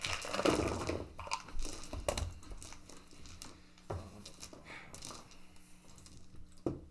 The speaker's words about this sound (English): Rolling my own dice.